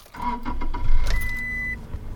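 A car driving down Route 28 on Cape Cod: low engine hum and road rumble, with a brief mechanical whine partway through, and no talk.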